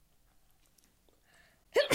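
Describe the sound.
A single sharp sneeze from a woman bursts out near the end during a snack tasting, after almost silent moments with only faint scattered sounds.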